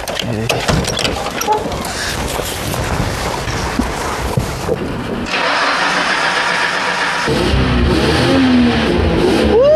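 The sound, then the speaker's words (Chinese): A car engine turns over and catches about halfway through, then settles into a loud, steady running roar with revving. Voices and general noise fill the stretch before it starts. “我能不能上去塞一塞油门，听一下声音？ 发动，发动。”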